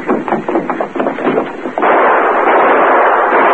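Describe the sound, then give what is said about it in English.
Gunshots in a radio drama crack out as a loud, rapid volley of blasts. The shots run together into a continuous harsh roar. “What are you shooting at?”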